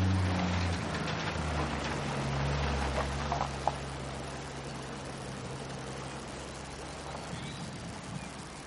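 A pickup truck driving along a muddy, winding road lined with low stone walls and bare trees, its low engine drone steady and fairly faint beneath a broad wash of outdoor noise.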